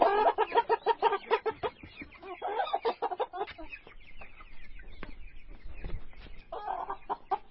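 Chickens cluck in a farm yard pen where young chickens are raised. A quick run of sharp, rhythmic clucks comes first, then softer scattered clucks and calls continue at a moderate level.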